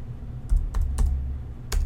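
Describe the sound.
A few sharp, sparse clicks of typing on a computer keyboard while writing code, tapped at an uneven pace over a low, steady hum.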